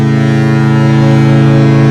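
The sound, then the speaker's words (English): The horn of a big cruise ship arriving at Port Milwaukee sounds as one loud, deep, steady blast. Its rich low tone holds unchanged for the whole clip. “Got another big boat that has steamed into Port Milwaukee.”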